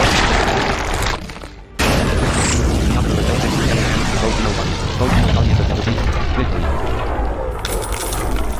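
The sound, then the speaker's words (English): A Chomp bite attack in a turn-based video game battle: a loud, booming crunch of impact noise that dips briefly, then surges back and holds as a sustained, harsh rumble. “Leonidar used Chomp.”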